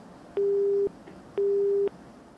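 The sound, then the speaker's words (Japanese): A telephone busy tone after a call is cut off: two steady, mid-pitched beeps, each about half a second long, separated by a short gap over faint line hiss. “息子を装う電話はすぐに切れてしまいましたが、別の電話がすぐにかかってきました。”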